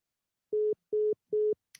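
Telephone line tones while calling back a caller who had hung up: three short, evenly spaced, steady mid-pitched beeps, then a brief click.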